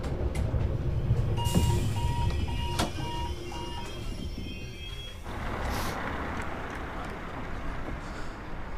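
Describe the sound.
A train rides on toward the next station with a continuous low rumble and rattle throughout, plus a run of short, evenly spaced tonal beeps in the first half before the noise settles into a smoother hiss.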